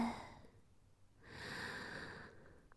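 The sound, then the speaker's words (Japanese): A slow, deep breath drawn in through the nose during a guided relaxation exercise before sleep. It is soft and airy, swelling over about a second and then easing off, with no talk. “まずは深呼吸をします。吸って”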